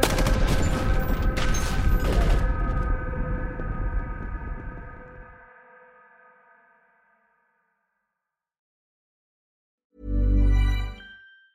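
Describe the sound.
A dense burst of gunfire with ringing metallic tones that fade over several seconds into silence, followed by a short, low burst near the end.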